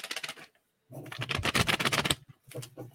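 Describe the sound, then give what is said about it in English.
A sheet of paper being flapped gives crisp, papery rustling bursts, a short one, a brief silence, then a longer, denser flurry and a final shorter burst. “That wasn't a bird flying in the window. That was me. Do we have any other stories of the tour flapping, we can tell while we wait? Flapping my paper.”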